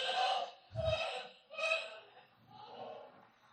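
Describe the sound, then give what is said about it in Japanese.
Heavy panting, with a few loud, breathy huffs separated by short pauses, the last ones softer and longer. “はあはあ言ってるでしょ”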